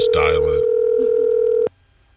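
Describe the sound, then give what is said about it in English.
Telephone dial tone, a steady single pitch that holds for about a second and a half and then cuts off abruptly, with a brief voice at the very start. “Is there something wrong with the phone system, maybe? Oh, yeah, it's the phone's problem. I got one. Just dial it.”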